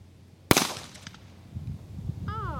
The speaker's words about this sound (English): Well, I have shot a gun. You have fired a gun. There we go. It was loud.